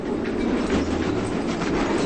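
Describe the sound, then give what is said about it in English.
A train rumbles past in a steady, heavy low roar, with faint clickety-clack of the wheels running throughout. “Turning onto his side, he peeks out the window and watches a train rumble past.”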